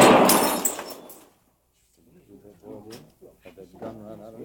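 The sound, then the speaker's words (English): A gunshot rings out and a glass shatters from someone's hand in a western standoff. One loud, sharp burst with a long, bright crash trails off for about a second, then a man speaks. “I ain't going to be doing no fancy trick shooting a glass out of your hand.”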